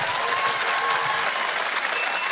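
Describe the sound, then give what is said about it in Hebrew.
Sustained audience applause for an orchestra at a festival in Jerusalem: dense, even clapping from many hands that holds steady and loud throughout, with no voices standing out. “ולתזמורת המאמנת הזאת, עוד כפיים, עוד כפיים.”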